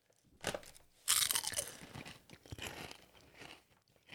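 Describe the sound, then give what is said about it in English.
Crunchy food is chewed right up against the microphone. Two sharp, loud crunches open the sequence, then softer, uneven chewing follows, with no talk over it. “You should eat it right into the microphone. I'm going to try all of this for right now.”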